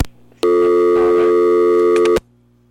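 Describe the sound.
Busy signal on a phone line after a caller hangs up: one long, loud, steady tone with a buzzy harmonic edge. It starts abruptly, holds for under two seconds and cuts off, with a faint hum before and after.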